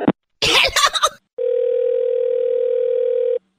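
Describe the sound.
Telephone dial tone after a call is disconnected: one loud, steady, even tone that holds for about two seconds, then stops abruptly.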